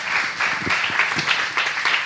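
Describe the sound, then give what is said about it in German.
An audience applauding a guest called onto a stage at a local radio event: a steady wash of many hands clapping, moderately loud, with no talk over it. “Ein Applaus für Frank Hötzel.”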